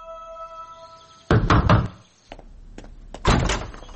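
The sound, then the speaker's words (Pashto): Knocking on a wooden door: a quick cluster of a few loud knocks, a pause, then a second hard burst of knocking near the end. “څو ورځې وروسته د نظیم وکیل د قسیم دروازه وټکوله.”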